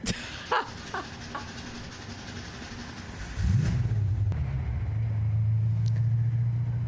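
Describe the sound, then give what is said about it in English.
A car engine starts: a few sharp clicks come first, then the motor catches with a rising surge and settles into a steady, loud idling rumble that continues to the end. “Waiting for that car to start.”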